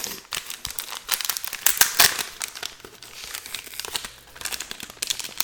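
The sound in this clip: Crinkling and tearing as a sealed, decades-old game card pack wrapper is forced open, the tough plastic giving continuous crackly rustling broken by sharper tearing bursts, fairly quiet and without speech.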